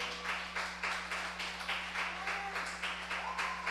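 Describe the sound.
Church audience applauding after being asked to acclaim the Lord, heard as faint, pulsing bursts of clapping over a steady low electrical hum.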